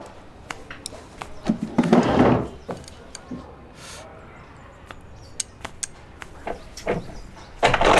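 A door being locked from the inside: scattered sharp clicks and clacks, with a louder rattling clatter near the middle, then more sparse clicks.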